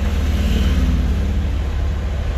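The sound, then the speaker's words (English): A motorcycle passing by, heard from inside a car: a loud, steady low engine rumble that holds throughout without a clear rise or fall. “sorry, motorcycle pass by”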